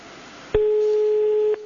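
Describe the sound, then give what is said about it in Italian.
A telephone ringing tone on a call: one steady, pure ring tone sounds for about a second after a short quiet stretch of line hiss. “Non c'è nessuno! Un altro squillo e poi vado via.”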